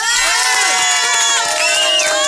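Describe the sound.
A crowd cheers and shouts at an event presenting candidates, with many high, excited voices whooping and yelling together in a loud, continuous roar throughout.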